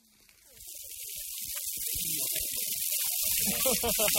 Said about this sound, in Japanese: 焼きそばを焼き始めました